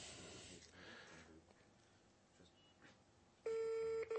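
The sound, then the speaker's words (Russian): Telephone keypad tones sound as a number is dialed: after faint hiss, a steady electronic beep starts near the end, breaks briefly, then resumes for a short moment. “Попытаюсь набрать. Связь, она не всегда хорошая бывает.”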